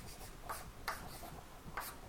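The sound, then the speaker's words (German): Writing on a board during a philosophy lecture: faint, scratchy strokes in a few short bursts with quiet pauses between them. “Und da schreiben wir jetzt her”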